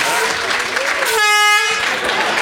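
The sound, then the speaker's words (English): A single air horn blast, a loud, steady, buzzy tone lasting about half a second, cuts through ongoing voices and chatter. “I'm getting an air horn.”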